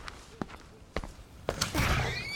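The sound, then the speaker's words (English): A door being opened, preceded by a few soft thumps, then a broader swell of noise that ends with a faint rising squeak. “Open the door and ask her.”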